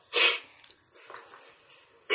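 Quiet sniffling: a few short, breathy nasal inhales, the loudest at the start and the end, with fainter sniffs between them and no talk.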